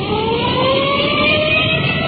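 A police car siren while rolling code 3 to a call: a loud, steady wailing tone that climbs slowly in pitch over a continuous engine-like rumble, sounding muffled.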